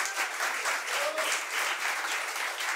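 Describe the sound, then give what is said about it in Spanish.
An audience applauds at a university event of folk music and improvised sung verse with guitar, tres and guitarrón players. The clapping is loud, dense and steady for the whole stretch. “También nos acompañan, aplausos para ellos. Un aplauso, por favor.”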